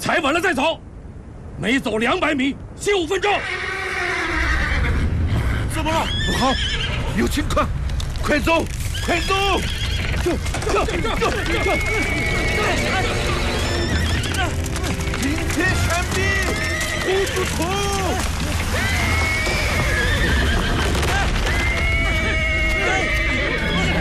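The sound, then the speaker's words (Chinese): Horses neighing and whinnying again and again on a narrow cliff-side mountain path, where a frightened horse with trembling legs refuses to walk. Sharp, wavering calls repeat over a dense low rumble, with people's voices mixing in. “我的马，它不愿意走，它的腿在抖。”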